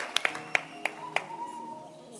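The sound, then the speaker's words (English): Five sharp, separate hand claps from a church audience, scattered over the first second or so, then a fainter tonal hum trailing on alone. “Clap your hands again.”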